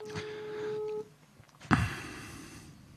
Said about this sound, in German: So, anrufen.